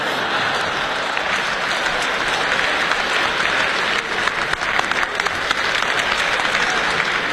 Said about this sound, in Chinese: 谢谢大家的掌声，谢谢。